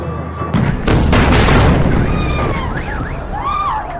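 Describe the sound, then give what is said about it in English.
An Israeli missile exploding meters from a home: a sudden loud blast that swells into a sustained, heavy roar, with high wavering tones rising above the rumble near the end. “A glimpse of what it's like when an Israeli missile hits just meters from your home.”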